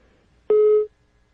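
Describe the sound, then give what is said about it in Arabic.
Telephone busy tone after a call-in line disconnects, a single steady mid-pitched beep of under half a second, alone over quiet line hiss. “يبدو قطع الخط.”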